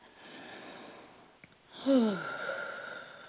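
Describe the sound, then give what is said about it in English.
A deep breath drawn in slowly during a guided breathing moment: a long airy inhale with a faint wheezy whistle, preceded by softer hiss, with no talking. “So we're going to take a couple deep breaths.”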